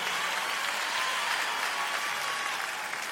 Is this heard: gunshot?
no